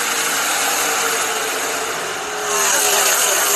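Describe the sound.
Stock car engines roar at Atlanta during the Quaker State 400 NASCAR race, as a pack of cars makes a dense, steady, high-pitched drone that dips briefly, then swells louder.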